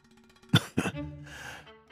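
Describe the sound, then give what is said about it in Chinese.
An old man coughs twice: two rough, harsh bursts close together, clearing his throat, followed by softer breathy noise. “咳了一声”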